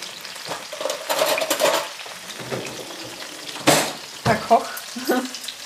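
Roast meat fries in a pan with a steady, hissing sizzle. Scrapes and clinks of utensils stirring and turning it come and go throughout.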